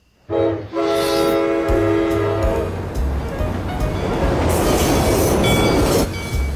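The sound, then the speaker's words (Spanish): A train at a railway station sounds a sustained horn tone at the start, then gives way to a loud, steady rolling rumble of wheels and carriages that carries on to the end. “Finalmente deciden conocerse y ya en la estación de tren...”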